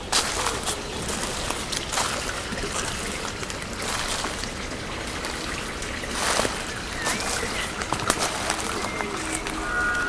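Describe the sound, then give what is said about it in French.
Steady trickling and rushing of a small forest stream that someone is walking through step by step. The water noise is continuous and fairly loud, with a few brief louder bursts along the way. “Ce petit cours d'eau.”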